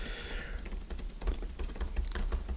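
Fast typing on a computer keyboard as a note is written down: many quick, irregular clicks and taps in uneven bursts over a low, steady background.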